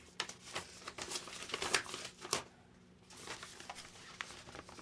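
Bubble wrap crinkles as a gift is unwrapped, with soft, irregular crackles and rustling bursts. A brief lull near the middle breaks the rustling before it resumes.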